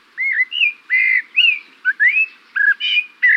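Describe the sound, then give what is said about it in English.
A Eurasian blackbird sings a string of clear, fluting whistled phrases, each short and varied in pitch, separated by brief gaps, loud and alone. “This bird song seems familiar, intriguing. It's the song of the Eurasian blackbird.”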